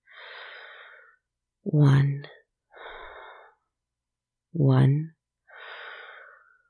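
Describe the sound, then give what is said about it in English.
Slow, deliberate breathing in and out: soft airy breaths alternate with two louder, voiced exhales like sighs, unhurried and separated by brief pauses. “One breath in, one breath out.”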